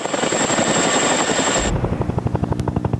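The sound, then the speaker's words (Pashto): A NATO helicopter flies over Afghanistan. Its loud rotor noise starts with a steady high whine that cuts out partway, then gives way to a rapid, regular thumping of the blades. “لا هم د افغانستان په فضا د ناتو هلیکوپټر ګرځي.”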